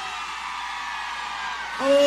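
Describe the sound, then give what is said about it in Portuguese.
Women in a concert crowd in Goiânia scream, a dense sustained roar of high voices that holds steady for about two seconds, with a brief tone rising out of the crowd near the end. “Cadê o grito das mulheres apaixonadas?”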